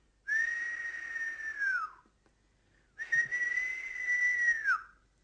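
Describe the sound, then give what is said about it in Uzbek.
Soft human whistling meant to wake birds: two long, steady, high whistled notes separated by a short pause, each dropping in pitch at its end, fairly faint and with no voices. “Gilamcha daraxtdagi qushlarning uyg'atmoqchi bo'libdi. Astagina hushtak chalibdi.”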